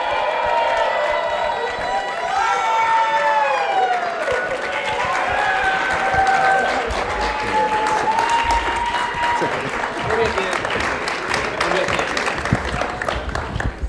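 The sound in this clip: An audience at a North Central University chapel service applauds to welcome panel members, with steady clapping and cheering throughout and voices heard near the start.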